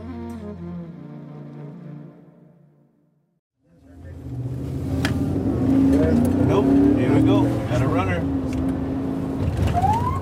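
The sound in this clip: A border police car revs and accelerates by the border fence in El Paso. It gives a loud, steady engine roar with broad road rumble that starts after a brief pause and holds for several seconds.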